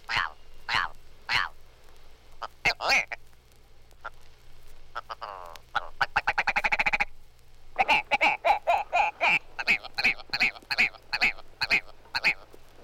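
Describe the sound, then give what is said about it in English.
A Willow Ptarmigan gives harsh, croaking notes, then a rapid accelerating rattle, followed by a long series of rhythmic, throaty clucks and barks. “Page 75, Willow Ptarmigan.”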